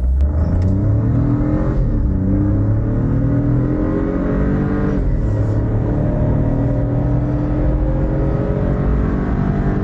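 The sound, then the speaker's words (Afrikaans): An Opel 1.2 petrol turbo engine rated at 96 kW revs hard, its loud, continuous note climbing in pitch in repeated sweeps. “Die Opel se 1.2 petrol turbo skop 96 kW uit en 230 Nm wrinkrag vanaf net 1750 toere.”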